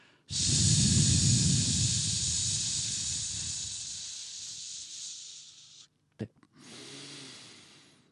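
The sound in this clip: A long, steady hissing exhalation during an abdominal breathing exercise in a voice-training lesson, with the breath driven from the diaphragm at the sides and back of the waist. It lasts over five seconds and fades slowly, followed by a short puff and a quieter breath.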